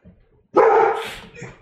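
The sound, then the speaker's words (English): A dog barks at someone arriving at the door: a loud, sustained burst of barking, then a shorter, softer bark. “We have an intruder at the door, and the dog is protecting us.”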